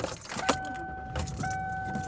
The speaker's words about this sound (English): I am driving around.